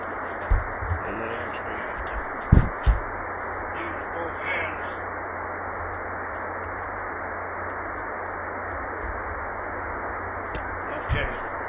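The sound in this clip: Steady static hiss from an HF radio receiver with its antenna reconnected: a dense, band-limited rush of noise running throughout, with a few brief clicks and pops standing out.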